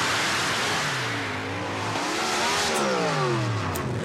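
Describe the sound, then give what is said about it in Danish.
A big-engined motorsport car revs hard, its loud continuous engine note climbing and dropping in pitch several times. “Dette er ikke sjakk, for å si det sånn. Dette er motorsport. Ja. Jeg vil påstå motorsport med stor motor.”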